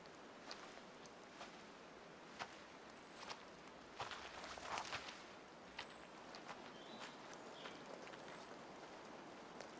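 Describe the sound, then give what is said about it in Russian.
A girl steps out of bushes and walks slowly forward, with soft, faint, irregular footfalls over a low background hiss. “Девушка выходит из кустов и медленно шагает вперед.”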